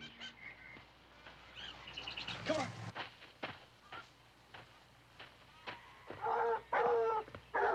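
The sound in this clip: Barking from a pack of dogs running at full tilt across a rocky slope, a few sharp bursts rising out of a busy background of chirping birds, with the loudest barking near the end.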